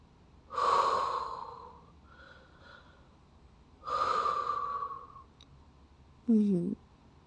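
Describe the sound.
Slow, deep breathing with two long, airy breaths separated by a quiet pause, soft and close, followed by a short, sharper sound at the end.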